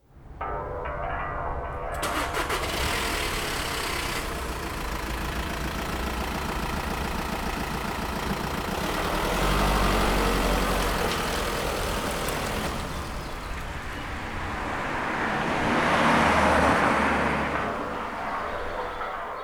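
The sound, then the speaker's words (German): A car engine runs steadily throughout on a drive into the Bavarian Forest, its low, even drone swelling in loudness twice along the way. “Wir müssen ein gutes Stück fahren. In den schönen bayerischen Wald. Schnallen Sie sich an.”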